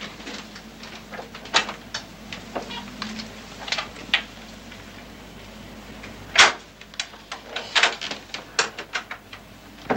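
Key being worked out of a door lock gives a string of sharp, irregular metallic clicks and small rattles, with one louder snap partway through, against a quiet background.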